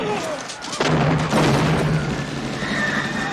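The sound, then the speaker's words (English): Gunfire in a film shootout between a drug cartel and Jamaicans: loud, dense bangs and booms over a continuous noisy backdrop, with sharp hits near the start and the middle. “this is a shootout between the cartel and the Jamaicans”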